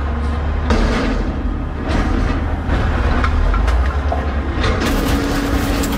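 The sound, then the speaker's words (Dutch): A garbage compactor truck works on an early-morning refuse collection. Its loud, steady mechanical rumble and grinding continue throughout, broken by several heavy clanks, with no voices. “Dit is een kraakperswagen. Veel vuilnisophalers, ja, die gaan dus ook wel vroeg aan het werk.”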